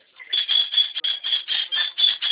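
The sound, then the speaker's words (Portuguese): A pet bird squawking in a rapid run of harsh, scratchy bursts, repeating at a quick, fairly even pace and sounding thin and narrow, like it is coming over a phone line. “Ah, meu passarinho, bravo.”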